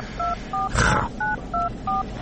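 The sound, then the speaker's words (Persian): Telephone keypad tones sound as a phone call is placed. Five steady, even beeps play in sequence, with a short noisy rustle between the second and third. “رفت بزنم یه زنگ به مادر پامچال بزنم بگم شروع کنه دیگه”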